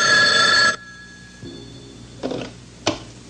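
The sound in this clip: A telephone bell rings in a tense film scene: one loud, bright burst of ringing that cuts off abruptly, followed by a few faint clicks and knocks in near silence.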